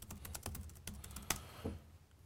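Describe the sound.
A password being typed on a computer keyboard: many quick, uneven clicks of keys at a soft level, with one sharper tap near the middle and a few slower presses at the end.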